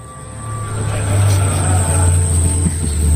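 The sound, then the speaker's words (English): Rivian R1T truck off-roading in an Unreal Engine demo gives a steady low rumble topped by a thin, constant high whine, slowly growing louder across the few seconds. “Let's explore the environment. And what better way to do that than off-roading? And what better way to off-road than in a Rivian R1T?”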